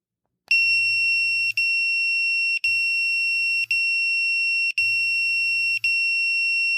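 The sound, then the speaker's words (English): A home alerter alarm is set off and blares a loud, piercing high electronic tone with only brief breaks. A lower buzz pulses beneath it in three long stretches. “give people an idea what the alerter would be like at 3 o'clock in the morning, Wesley Kynes' house.”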